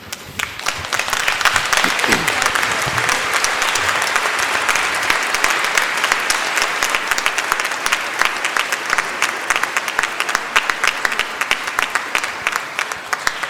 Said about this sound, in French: Alors levez-vous, nous allons acclamer le Seigneur